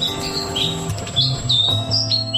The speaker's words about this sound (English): That is the bird song of the Black Robin, which has taken out the Bird of the Year for the first time, one of our smallest birds.